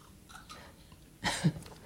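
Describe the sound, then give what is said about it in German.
A quick sip of a drink: a short, soft slurp followed by a low gulp, faint and on its own. “Ich würde jetzt gerade mal einen Schluck trinken.”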